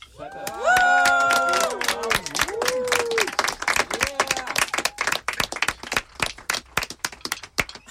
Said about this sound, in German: Einmal bitte Applaus.